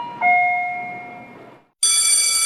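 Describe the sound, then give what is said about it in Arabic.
A bell chime opens a school-supplies sale advertisement: a two-note ding-dong, high then lower, that rings on and slowly decays. A brief silence follows, then a bright, high shimmering ring. “رن جرس الحملات.”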